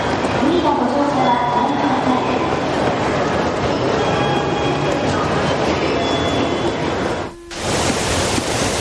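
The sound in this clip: Train station ambience at an entrance with turnstiles: a steady, loud rumble of rolling rail cars with thin squealing tones, broken by a brief dip near the end before the noise resumes.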